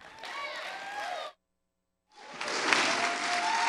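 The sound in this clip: A church audience applauds with dense clapping and some raised voices. A short silent gap cuts it, then the applause resumes as loud as before.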